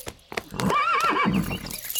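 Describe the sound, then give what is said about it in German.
Horse arriving without a rider: a few hoof knocks, then a loud whinny with a wavering, trembling pitch that fades into snorting breaths. “Ein Pferd ohne Reiter bedeutet meist nichts Gutes.”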